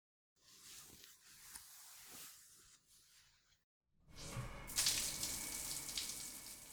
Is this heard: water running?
yes

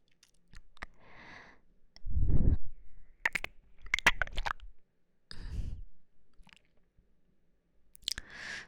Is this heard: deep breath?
no

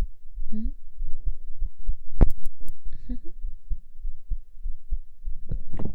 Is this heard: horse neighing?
no

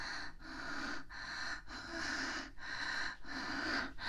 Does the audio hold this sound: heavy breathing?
yes

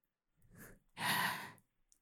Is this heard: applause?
no

